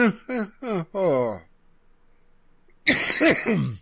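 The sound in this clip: A person coughs and clears their throat: four quick, rough bursts in a row, then a pause and a short, loud vocal sound.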